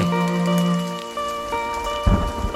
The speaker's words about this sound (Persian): فقط صدای بارونی که میتونه آرومت کنه